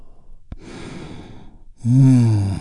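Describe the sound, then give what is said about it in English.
A deep breath during a guided relaxation exercise: a sharp click, a long airy inhale, then a loud voiced exhaling sigh that trails off. “taking a big, deep healing breath with me. Here we go. And release.”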